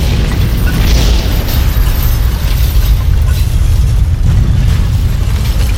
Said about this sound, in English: In a nearby village, the blast throws mother-to-be Katerina Henrik off her feet.